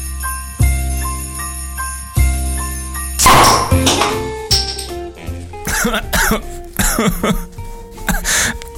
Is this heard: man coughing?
yes

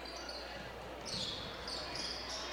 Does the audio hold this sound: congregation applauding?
no

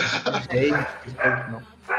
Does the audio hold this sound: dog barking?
yes

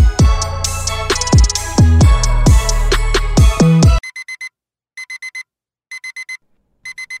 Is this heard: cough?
no

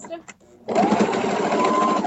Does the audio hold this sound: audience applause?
no

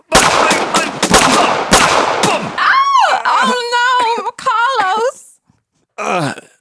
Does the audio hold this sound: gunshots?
yes

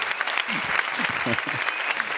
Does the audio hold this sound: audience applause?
yes

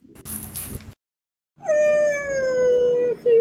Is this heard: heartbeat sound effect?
no

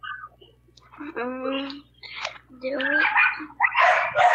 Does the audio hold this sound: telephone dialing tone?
no

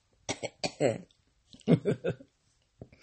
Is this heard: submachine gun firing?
no

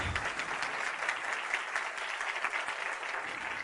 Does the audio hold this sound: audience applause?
yes

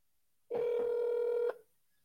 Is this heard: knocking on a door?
no

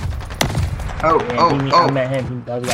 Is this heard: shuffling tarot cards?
no

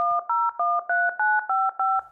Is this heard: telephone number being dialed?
yes

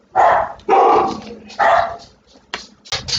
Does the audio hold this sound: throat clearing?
no

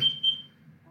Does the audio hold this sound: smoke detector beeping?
yes

